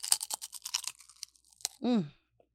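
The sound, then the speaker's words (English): Cannabis-infused shrimp chips crunch as they are bitten and chewed: a rapid, crisp run of many dry crackles for nearly two seconds, followed by a short voiced murmur. “You gonna hit him with the shrimp chip? Up top? Up top with the shrimp chip. Up top ASMR.”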